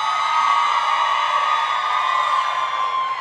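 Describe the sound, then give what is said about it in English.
A live show audience shouting hi together, a loud sustained mass of many voices calling and cheering in unison with no pause. “I'm actually doing a live show right now with a lot of people. Say hi, audience.”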